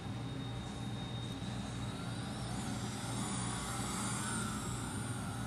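Electric Formula E race cars accelerate at a green flag start. A steady, dense roar carries high electric whining tones, with no voices.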